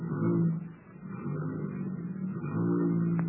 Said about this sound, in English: Now, just step inside here and see how the motor sounds.